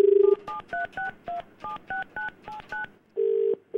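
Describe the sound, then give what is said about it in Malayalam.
Telephone being dialed: a steady dial tone gives way to a rapid, evenly spaced run of crisp two-note keypad beeps, then a longer steady tone returns twice at the end. No voices are present. “സിത്താരെ നമുക്കൊന്ന് വിളിച്ചു നോക്കാം”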